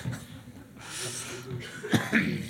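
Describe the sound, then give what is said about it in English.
A man coughs twice in short, rough bursts near the end, after a stretch of low background murmur. “Sorry, he's coughing.”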